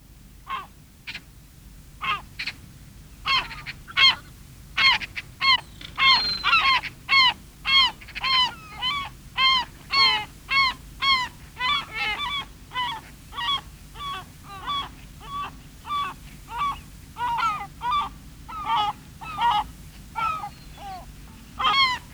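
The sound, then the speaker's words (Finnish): Common tern calls: many harsh, grating cries repeated in a fairly regular rhythm, loud and close together, with no other sounds. “Kalatiira.”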